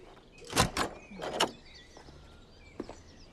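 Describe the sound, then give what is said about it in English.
Metallic clicks and scrapes of a long key turning in a front-door lock: a few sharp bursts cluster early, then a fainter click follows near the end, alone without talk. “She uses a long key to lock the front door.”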